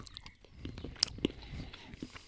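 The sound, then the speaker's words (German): Biting into a hard bar of dark chocolate: a few sharp, crisp snaps ring out over quiet chewing, faint and short, with no talk. “Okay, das ist dunkle Schokolade, oder? Oh, Alter, ist sie hart.”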